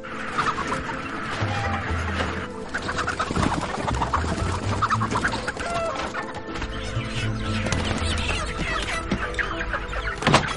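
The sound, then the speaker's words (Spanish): Live chickens clucking in a hangar where the birds are being cleaned and sorted: a dense, continuous chorus of overlapping clucks and squawks at a steady level for the whole stretch, over a low rumble. “En el hangar, continúan con las tareas de limpieza y clasificación de los pollos.”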